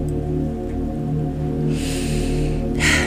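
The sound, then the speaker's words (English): Deep breathing in and out, with two broad, airy rushes of breath near the end over a steady, low, sustained musical drone. “So, just taking deep breaths in and out.”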